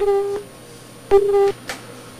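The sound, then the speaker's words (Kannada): Telephone disconnect tone after a call cuts off: two steady mid-pitched beeps, each roughly a third of a second long and separated by a gap, with a few faint clicks between them. “Okay, ಆರಂಭದಲ್ಲಿ ಯಾಕೋ ಕರೆ cut ಆಯ್ತು, ಯಾರ್ದು ಏನು ಗೊತ್ತೇ ಆಗ್ಲಿಲ್ಲ.”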